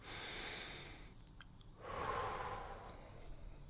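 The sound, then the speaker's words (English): Slow, deliberate breathing: two long, soft breaths separated by a brief quiet pause, with no other sound. “So let's breathe.”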